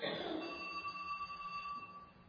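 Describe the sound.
Cell phone ringing during a church sermon: a faint, steady electronic tone held for about two seconds over a voice speaking underneath.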